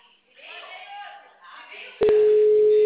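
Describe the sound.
A steady telephone line tone sounds while a call is being placed. It comes in abruptly and loudly after a stretch of muffled, band-limited talk and holds one even pitch to the end.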